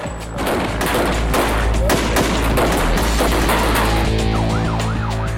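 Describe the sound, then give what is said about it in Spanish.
Heavily armed kidnappers and police exchange gunfire during a raid: rapid, dense shots in loud overlapping bursts, with a wailing siren rising and falling near the end. “Pero dos oficiales abren fuego y empiezan una redada por su cuenta. Los secuestradores, fuertemente armados, solo ven a dos policías y disparan.”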